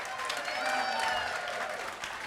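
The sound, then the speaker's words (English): A church audience applauding and cheering as the cast of an Avengers skit takes a bow: faint, steady clapping with cheering voices mixed into the crowd noise. “the entire cast took a bow and the congregation cheered wildly”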